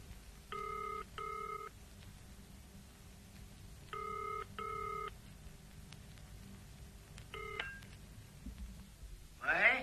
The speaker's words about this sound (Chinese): 等我打个电话先。